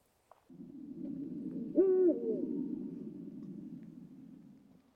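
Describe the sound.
An eagle owl gives a single deep, short hoot that stands out over a steady band of soft background hiss.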